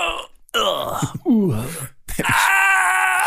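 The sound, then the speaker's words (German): A voice imitates the stifled loud screams of old computer games with a few strained, wavering moans and groans that slide downward in pitch. It ends in one long held cry. “Ja, das sind ja die Geräusche, die früher in Computerspielen immer gemacht wurden, diese unterdrückten lauten Schreie. Sie sollten laut klingen.”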